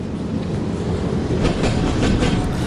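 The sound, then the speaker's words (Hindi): A train rumbles steadily, with continuous heavy noise and faint clattering from the rails throughout. No voices are heard. “Train है, मेरे पीछे आओ।”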